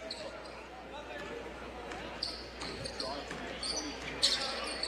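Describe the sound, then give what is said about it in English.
A basketball is dribbled up the court during a men's basketball game, a few faint bounces heard under a talking voice. “With the dribble into the front court”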